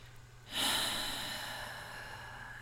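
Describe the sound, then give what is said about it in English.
A deep exhale: a soft, breathy rush that starts abruptly and fades slowly over about two seconds, quiet and heard alone. “So let's take a deep exhale together.”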